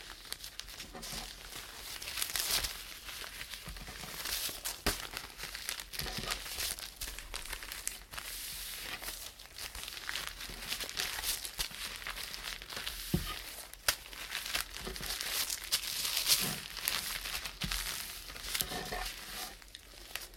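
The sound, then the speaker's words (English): Crinkly material rustles and crackles as it is folded back and forth in an accordion fold, a faint, continuous texture of small crisp crinkles with occasional sharper snaps. “And accordion fold this back.”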